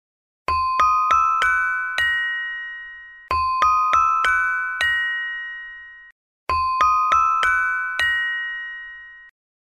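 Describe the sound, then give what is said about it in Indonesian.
Bright metallic strikes on a saron, a gamelan metallophone, come in three identical phrases of five ringing notes each, every phrase ending on a longer sustained tone, with brief silences between and no voices. “Kalau saron, bunyinya seperti ini.”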